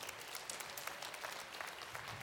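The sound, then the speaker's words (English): Audience applause for children at an auditorium event: a steady, dense patter of many hands clapping without a break. It is fairly faint and heard with no voices. “Let's give those kids a round of applause.”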